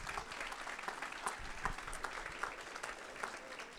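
A crowd applauds as two people are called up onto a stage, giving a soft, sustained patter of many overlapping claps with a few sharper individual hits standing out, holding at an even level throughout.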